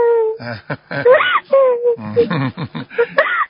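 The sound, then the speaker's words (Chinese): A young girl cries in a run of wailing, moaning sobs, several voiced bursts broken by short gasps and whimpers, fairly loud and with no other sound around them. “傻姑娘不要哭了啊，不要哭了啊。”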